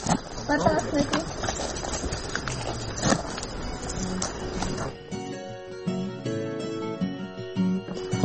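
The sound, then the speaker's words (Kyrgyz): Donkeys set off walking along a mountain path, their hooves clip-clopping steadily under ongoing talk. “Бул эшектер көнүп калыптыр, өзүлөрү жолду билет экен, өзүлөрү жөнөдү.”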